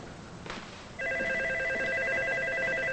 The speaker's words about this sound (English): She goes to answer the phone.